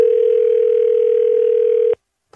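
A loud, steady telephone dial tone plays while a dropped caller is being rung back. It holds a single unbroken pitch for about two seconds, then cuts off abruptly, and a brief click follows after a short silence.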